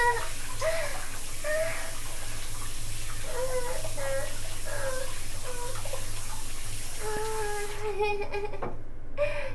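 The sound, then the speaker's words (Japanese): Water rushes steadily in a bathtub that has filled too high during play. A constant broad wash of water runs throughout, with voices over it. “湯船の中のお湯が増えすぎてしまったよ。遊んでたら。”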